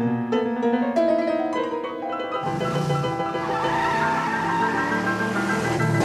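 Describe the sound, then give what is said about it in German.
A car driving off with screeching tyres: a harsh, tonal squeal that gives way to a broader, louder roar of engine and road noise partway through. “Folgen Sie dem Wagen! Schnell!”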